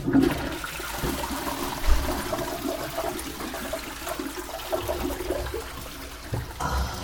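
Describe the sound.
A toilet flushes with a steady rush of swirling water that carries on for about seven seconds at a moderate level, with a brief low thump near the start.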